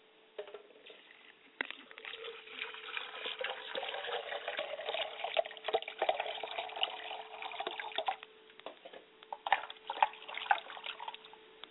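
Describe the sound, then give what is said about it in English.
Running water splashes as hands and a face are washed, a continuous gurgling flow broken by many irregular splashes and slaps of water, fairly quiet and with no voices. “Now, as I go before the throne, I must wash my hands and face so that I don't greet my ancestors with a stale face.”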